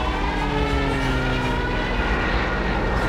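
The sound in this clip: An airplane's engine drones as the plane comes down to land beside a flat mountain lake, a loud, constant hum with layered steady tones and no break in level.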